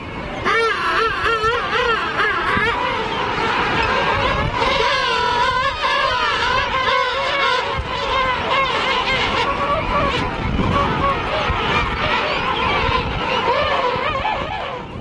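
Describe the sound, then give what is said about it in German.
A king penguin colony on South Georgia calls without pause, a loud dense chorus of overlapping warbling, trumpeting cries that waver up and down in pitch. “Und da sind wir beim Klang der Pinguinkolonie, denn die ist natürlich nicht ohne.”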